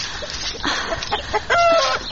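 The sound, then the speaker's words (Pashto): Chickens clucking in a yard: a few short, throaty clucks over a low, busy background, with a higher, drawn-out squawk near the end. “چرګو ستړی مکړم، لور مې مغزه مه خورئ. اوس دی هلته لرې مې دانه درته اچولې، هغه وخورئ.”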